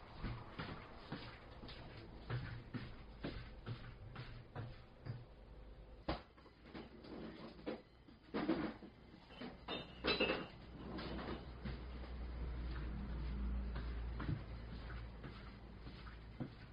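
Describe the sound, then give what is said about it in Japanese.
Dishware clinks and knocks as a finished sundubu rice bowl is moved to the dining table: a few faint, scattered clatters, followed by a low steady hum. “出来上がりましたスンドゥブ丼ですじゃ食卓に移します”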